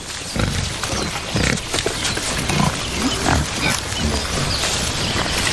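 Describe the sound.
Wild boar grunt while foraging on the ground for roots, worms, snails and fungi, in beech woodland. Many short, low snuffling grunts come in an uneven rhythm over steady rustling.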